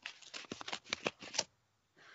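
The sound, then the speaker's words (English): A paper envelope being torn open: a run of several crisp, crackly ripping bursts over about a second and a half, then quiet. “Here's the envelope. There we go. Tearing into this bad boy.”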